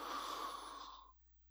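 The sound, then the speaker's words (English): One slow, deep inhale during a guided meditation, a soft airy rush that holds steady and then tapers away into silence after about a second. “You breathe in and you breathe out, right? Let's do that. Breathe in.”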